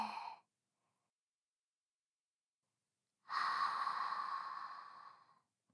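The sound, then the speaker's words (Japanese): Deep, faint breathing: a short breath sound, a pause of nearly three seconds, then one long, airy exhale that slowly fades out. “はい、大きく吸って。吐いて。”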